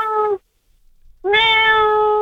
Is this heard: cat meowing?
yes